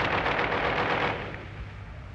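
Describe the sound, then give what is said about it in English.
Caliber .50 machine gun firing a dense, continuous burst of rapid shots for about a second, then a rumbling tail that fades gradually. “The 7.62 millimeter machine gun. The caliber 50 machine gun.”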